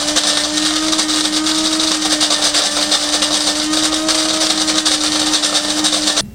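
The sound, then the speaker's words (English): An electric coffee grinder grinding coffee beans, a loud steady whirring whine with a constant hum that holds unchanged for about six seconds and then cuts off. No voices. “Gonna press the button. That's how I grind my coffee here.”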